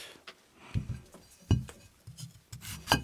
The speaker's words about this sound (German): Kartoffel in der Hälfte durchgeschnitten.